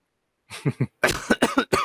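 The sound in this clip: Harsh coughing after trying to speak while inhaling: two short coughs, a brief pause, then a rapid run of several more forceful bursts.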